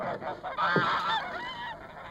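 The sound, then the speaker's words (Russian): Geese honk as they are driven out of a barn into swirling snow, a loud burst of several overlapping nasal honks in quick succession with no talk. “Илья Юргин выгоняет гусей из сарая.”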